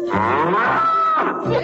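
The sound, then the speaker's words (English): A cow moos in a few loud, low, drawn-out calls that run almost back to back, with no talking. “C is for cow. There's a cow in my alphabets.”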